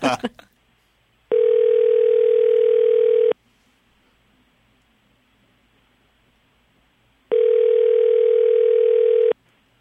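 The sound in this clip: A telephone call rings out before going to voicemail: two long, steady ringback tones of about two seconds each, separated by a gap of silence, after a short burst of noise at the start.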